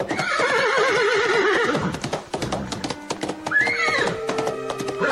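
Horses whinny with wavering, high calls at a horse race on the outskirts of Buenos Aires, one long neigh at the start and another later. Dense, clattering clip-clop of hooves runs throughout.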